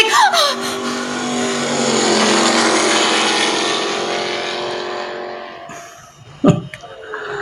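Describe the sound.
A private car arrives, its engine noise swelling to a loud sustained hum, then easing off. A few sharp knocks follow near the end.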